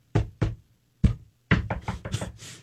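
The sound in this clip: Knocking on a screen door of a house at night, two separate raps, then a single knock, then a rapid flurry of loud knocks.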